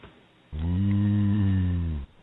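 A cow's mating call: a single long, low moo that holds steady for about a second and a half, then stops abruptly.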